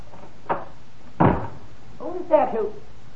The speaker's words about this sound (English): quickly, out that door, down the emergency stairs.